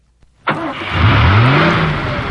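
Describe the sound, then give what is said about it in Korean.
A car engine starts with a sudden cranking burst that catches into a loud roar, then revs as it drives off, its pitch climbing before it settles into a steady, full drone. “내가 이참에 니들 오토차 태워줄게. 니네 오토차 안 타봤지? 내 차 타고 가자.”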